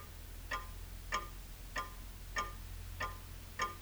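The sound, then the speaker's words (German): A clock ticks six times, soft and evenly spaced at a steady, unhurried pace, with nothing else heard in the near silence. “Die Uhr steht nicht. Doch, die Uhr steht. Wenn du ganz still bist, kannst du sie ja ticken hören.”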